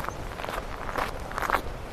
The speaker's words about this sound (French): Voilà, nous sommes sur l'autre versant, marchant toujours parmi une lande basse.